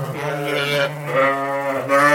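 Sheep bleat in the barn of the North Country School, a boarding school in rural New York: a few wavering, nasal cries overlap and follow one another with barely a pause.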